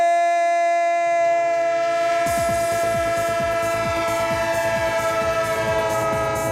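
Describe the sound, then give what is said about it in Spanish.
Train horn blares in a steady sustained chord while wheels start up beneath it, settling into a rapid rhythmic clickety-clack that grows louder and continues to the end, with no voices. “el tren de Radio Estadio, el tren de Onda Cero, el tren del fútbol y del deporte en vivo”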